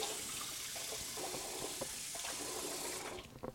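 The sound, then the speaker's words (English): Running tap water pours in a steady, hissing stream as hands are washed during scone baking. The flow cuts off near the end, followed by a few faint knocks. “So wash your hands again.”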